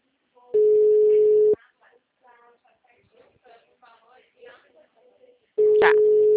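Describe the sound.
Telephone call tone while placing a call: two steady, mid-pitched tones about a second long, separated by several seconds of faint talk, the second tone arriving near the end.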